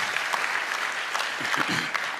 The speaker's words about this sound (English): Yeah, we can clap for that.